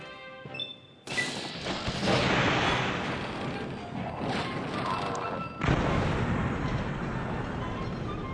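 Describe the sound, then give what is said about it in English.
A mini nuclear bomb catapult weapon fires in a video game. A loud, sudden crash gives way to a long, dense roaring rumble, and a second heavy blast follows later. “the Fat Man, which is a mini nuclear bomb catapult.”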